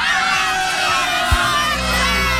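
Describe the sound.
Large crowd shouting a chant for the city of Galați, many voices merging into a loud, dense, unbroken roar that holds at an even level from start to finish.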